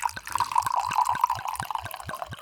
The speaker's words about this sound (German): schenk mir noch mal einen Schluck Wein nach